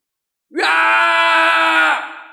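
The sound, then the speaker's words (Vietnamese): A man screams loudly in a single sustained, strained cry that breaks in sharply, holds for about a second and a half, then fades out. “Hàng Minh hét lớn”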